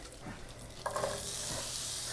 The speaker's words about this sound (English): So I'm putting in like less than a tablespoon of butter. Letting it melt all around the skillet. Tilting it around the bottom of the pan. Now I'm gonna bring my onions over.